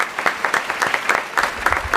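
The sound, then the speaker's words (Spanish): Applause from a theatre audience at the inauguration of a new theatre and a radio drama season: dense, steady clapping that holds at an even, fairly loud level for the whole two seconds. “Fuerte aplauso para ellos.”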